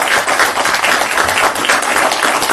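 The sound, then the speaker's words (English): Sustained applause from an audience honoring a World War II lieutenant killed in action. Many hands clap in a dense, steady, loud wash that continues without pause for the whole stretch. “How about a round of applause for Lieutenant Brindley?”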